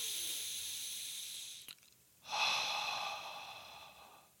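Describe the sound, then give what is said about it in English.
Deep breathing: a long, soft, airy intake through the nose, a brief pause, then a fuller breath pushed out through the mouth with a breathy hiss, quiet and without talk. “In through your nose. Out through your mouth.”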